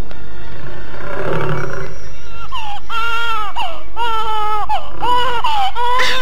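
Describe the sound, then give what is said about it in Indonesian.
A tiger's rough, low roar mixed with a baby's crying: loud, high, wavering wails that repeat in a steady rhythm over a constant noisy background. “mendengar suara harimau di dekat suara tangis bayi itu”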